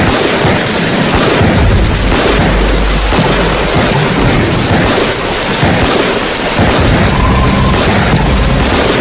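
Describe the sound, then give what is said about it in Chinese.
A squad firing on a military shooting range, heard as a loud, continuous roar of overlapping low blasts with no clear gaps between shots. “戚队长还在和五班说着事儿，这边六班的枪就响”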